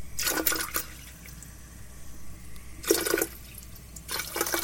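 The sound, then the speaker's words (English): Water splashing and hissing into a pot as it fills, in three separate bright bursts of pouring with quiet pauses between them. “Now, hear the filling of this pot.”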